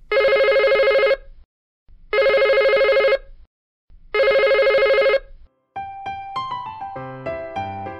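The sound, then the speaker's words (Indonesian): Telephone ringing: three long, even bursts of bright electronic trill separated by short pauses, followed by a quick melodic ringtone-like run of notes. “Dengarkan sekali lagi dering telepon berikut ini ya.”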